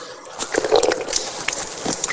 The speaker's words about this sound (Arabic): هكذا أخذت الماء بيدي ثم غسلت وجهي، أعيدها مرة ثانية، أو هي ثلاث مرات في الأصل، هذه الثانية، هذه الثالثة